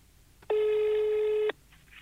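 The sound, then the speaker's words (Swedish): A single one-second ringback tone from an outgoing telephone call placed from a snowy parking lot in Hofors, a steady faint buzzing tone that starts and stops abruptly against low background hiss. “Jag sitter här på en snöig parkeringsplats i Hofors och ringer samtal.”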